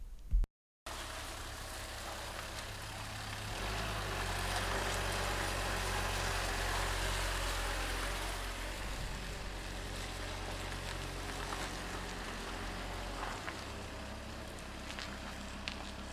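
A car drives along a road towards Gothenburg, giving a quiet, steady low engine hum and road rumble that hold evenly for a long stretch.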